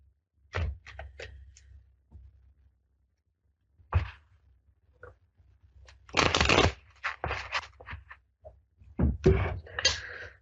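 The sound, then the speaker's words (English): A deck of cards being shuffled, with several separate bursts of riffling and soft tapping and squaring of the cards, broken by brief quiet gaps. “So, one more shuffle here.”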